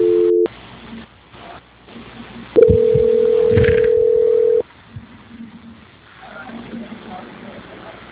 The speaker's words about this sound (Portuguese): A gente ainda aguarde na linha que eu vou transferir. Transferência.